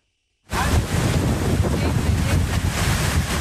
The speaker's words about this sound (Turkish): Fırtına ve hortum önüne kattığını savurdu. Çatılar uçtu, ağaçlar, elektrik direkleri devrildi.